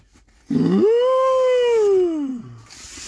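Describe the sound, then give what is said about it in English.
A human voice imitates a whale call: one long, loud moaning tone that swoops upward at its start, then glides slowly downward in pitch for about two seconds before trailing off into a low grumble. “the naughty whale. And he goes,”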